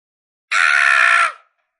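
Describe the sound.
A creature's loud scream sound effect, voicing a bald-headed being that swells to giant size: one sustained, harsh, bright cry that starts abruptly, holds for under a second and then fades quickly.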